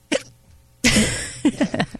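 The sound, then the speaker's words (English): A person hiccups with a short, sharp catch of breath, followed by louder breathy bursts and a few quick vocal gulps. “That hiccup says yes.”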